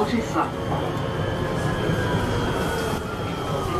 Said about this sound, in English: I am off the tram once again.